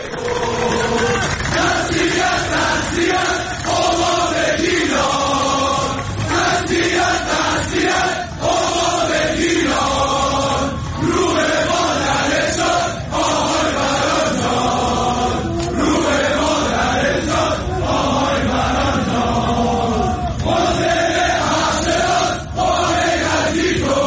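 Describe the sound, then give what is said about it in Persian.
Football spectators at Azadi Stadium chant a slogan in unison during a Damash versus Shahrdari Bandar Abbas match. The loud, rhythmic chant of many voices repeats without a break throughout. “تماشاچی ها این شعار رو میدن”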